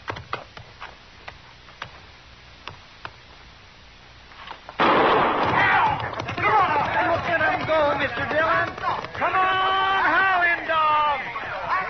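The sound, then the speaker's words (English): A single gunshot fired to start a horse race: a sharp, loud bang cuts through a steady ticking and gives way at once to sustained, loud noise with voices shouting over it. “Now I'll fire one shot.”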